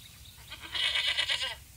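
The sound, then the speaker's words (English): A billy goat bleats in one drawn-out, wavering cry that lasts under a second, fairly faint and alone, with no talk. “walked on for some time, but stopped when they met a billy goat. He was chewing on an old bicycle tire, burping often.”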